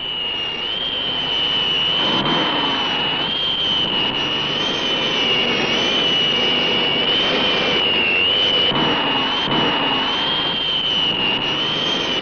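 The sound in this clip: Jet airplane engine roaring continuously, a steady loud rush of noise with a sharp high whine held throughout and no pauses or talk.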